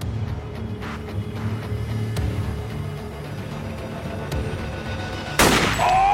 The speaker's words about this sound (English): Oh! You shot him!